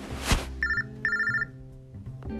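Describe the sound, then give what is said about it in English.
A phone ringtone signals an incoming call: a short electronic melody with two bright, repeating high-tone phrases over lower notes, opened by a sharp click. “this 517 number keep calling my phone. I don't know why. I'm just going to decline”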